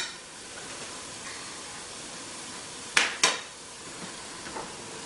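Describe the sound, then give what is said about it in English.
A sturdy spoon knocks against a pan as about three cups of leftover rice are mixed in: two sharp clanks close together, then a fainter tap, over a soft background hiss. “I'm gonna change my spatula into a sturdier spoon here because we're gonna now mix the rice in there.”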